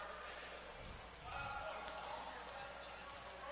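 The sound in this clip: Basketball dribbled on a court during a third-quarter game, a few dull low thumps close together near the middle, over quiet steady arena noise.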